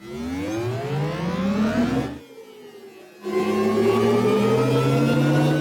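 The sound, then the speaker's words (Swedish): Audi's proposed artificial driving sound for electric cars: a synthetic, whirring harmonic tone that climbs steadily in pitch, drops away briefly, then returns loud and keeps rising gently. “Sist här hörde vi ett ljud som Audi funderar på att använda till sina elbilar i framtiden.”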